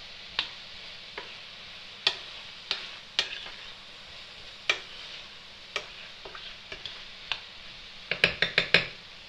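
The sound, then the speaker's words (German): Stirring food as it fries in a non-stick pan: a steady sizzle runs underneath while the utensil makes irregular sharp clicks and taps against the pan, ending in a quick burst of several taps. “wieder dazwischen umrühren, dass da nichts anbrennt. Ich habe zwar eine beschichtete Pfanne, aber umrühren ist trotzdem wichtig, dass alles gleichmäßig durch ist.”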